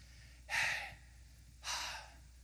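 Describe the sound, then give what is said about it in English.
Breathing in and out by a person: two soft, airy breaths, each about half a second long, separated by a quiet pause, faint and alone with no talking. “because it's the sound of breathing. That every time we breathe, we're not just giving life to nature, we're actually saying the names of the holy, holy God.”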